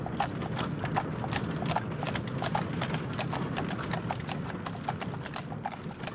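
Hoofbeats of a three-horse cart carrying soldiers: a rapid, steady clip-clop of many hooves that stays loud and continuous throughout, with no talking.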